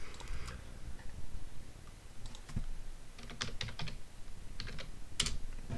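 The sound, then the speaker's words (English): Typing on a brand-new eMachines computer keyboard, with rapid clicking keystrokes arriving in uneven bursts and short pauses between them, standing out clearly alone. “The sound you're hearing right now is the sound of me typing on my brand new eMachines keyboard, and it sounds pretty darn nice”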